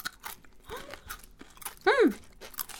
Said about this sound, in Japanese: パリッパリうん本当にすごい薄いレンコンにねスライスされててこれ素揚げしてるってことですね